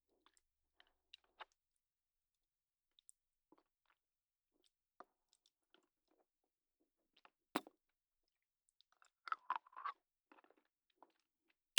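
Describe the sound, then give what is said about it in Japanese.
Soft chewing and mouth clicks while someone eats a tasty snack flavour, scattered quiet clicks with a denser burst of chewing near the end and near silence between them. “音聞こえてる？いや、これほんまに美味しいわ。”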